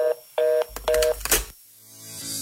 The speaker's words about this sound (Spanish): Paciencia, tienes todo el corte comercial para terminar de marcar.